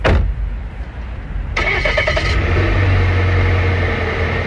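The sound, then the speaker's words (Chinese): A car engine starts as a forest ranger sets off by car on patrol. A low rumble turns into a louder catch about a third of the way in, then settles into a steady running hum. “吃过早饭，金振云又开车准备去巡护。”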